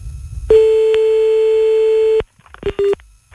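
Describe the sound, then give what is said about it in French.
A long steady telephone tone sounds during a phone call, holding one pitch for well over a second before cutting off. Two short beeps of the same pitch follow after a brief gap. “C'est quoi cette sonnerie à rallonge là?”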